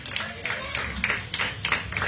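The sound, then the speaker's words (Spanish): A church audience claps in praise during a sermon. The claps come in a fairly steady rhythmic series of separate strikes throughout. “Dale esa ofrenda de palmas fuertes a nuestro Señor.”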